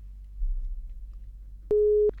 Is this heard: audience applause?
no